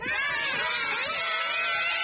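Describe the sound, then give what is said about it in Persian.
Children shout and scream shrilly and without a break while being tossed into shallow water during play, the high-pitched cries overlapping throughout. “داد نزنید واسه پسرها، دارن میترسن.”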